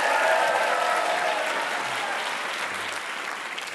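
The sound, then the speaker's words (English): Audience applause for a guest introduced on stage at a live trivia game show: a dense, steady wash of many hands clapping that stays loud throughout and eases slightly toward the end. “Let's give him a hand.”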